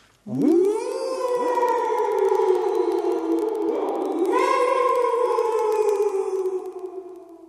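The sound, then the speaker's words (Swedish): Children howl together in imitation of a dog during a Swedish children's story, a sustained tonal howl that swoops upward at the start, holds for about seven seconds, and rises again midway before fading. “Och så ylar ni tillsammans på en gång.”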